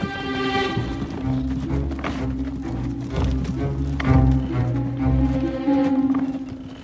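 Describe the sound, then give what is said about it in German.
A horse-drawn wagon rumbles along the Via Appia toward Rome in an audio drama, with irregular hoof-like clops and thuds over a continuous low rumble and sustained tones. “Eine ganze Weile lang rumpelt der Wagen über die Via Appia in Richtung Rom.”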